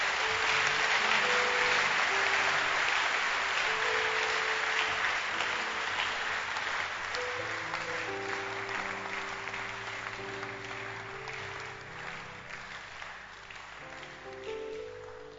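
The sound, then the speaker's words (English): A church audience claps their hands in a dense, continuous wash of applause over sustained keyboard or organ chords, the clapping gradually easing in loudness. “Clap your hands for the power of God.”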